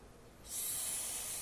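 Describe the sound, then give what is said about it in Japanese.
A deep abdominal in-breath during a breathing exercise: a soft, airy hiss that starts faint, swells after a moment, then holds steady without voices. “はい、吸い込んで、胸式です、はい、収めて、もう一回、はい、さあ、じゃあ大きく腹式で”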